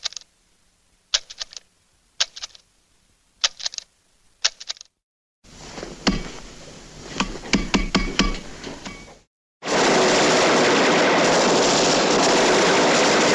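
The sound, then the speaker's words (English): Drumming from a tense film soundtrack starts as sparse clusters of sharp strikes. A denser passage of rapid hits follows, and it ends in a loud, sustained wash of noise. “So here's just a bunch of drumming.”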